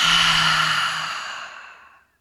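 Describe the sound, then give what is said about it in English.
A loud, long exhale after a deep breath in through the nose and a pause at the top. The airy rush starts strong and steady, then fades away over about two seconds, with no other sound. “deep, full breath in through the nose. Pause at the very top of the breath. And now loud and clear, exhale it out.”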